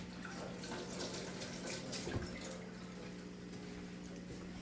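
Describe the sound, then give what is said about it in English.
Tap water runs steadily into a home kitchen sink as hands are washed during cooking, a continuous even splash with one slightly louder burst midway and no talking. “So I'm gonna put everything here. Wash my hands.”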